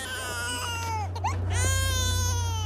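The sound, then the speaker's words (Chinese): A child cries in loud, wavering wails with rich harmonic tones, broken by a brief catch midway, over a steady low hum. “不要哭了。”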